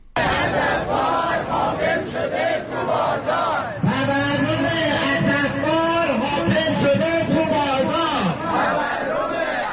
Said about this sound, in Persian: صدای معترضان در تجمع کرمانشاه را بشنویم.